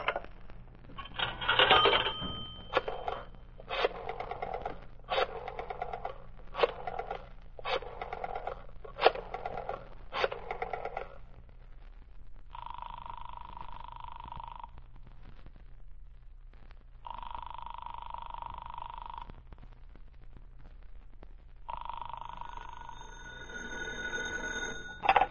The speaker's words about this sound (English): I'll dial that number and ask for Rittman.